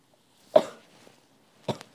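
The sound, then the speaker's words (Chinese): Two short, sharp coughs about a second apart, from a persistent unexplained cough without a cold or itchy throat; the second cough is followed by a brief extra catch, with quiet in between. “哎，我的肺可能真的出了问题了，莫名其妙，喉咙也不痒，然后也没有感冒，就没有什么东西，但就只是单纯的想咳嗽”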